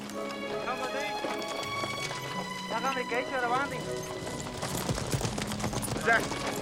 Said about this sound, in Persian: اینا سوارای مجاهده. 10,000 سوار دیگه هم سر مرز منتظرن.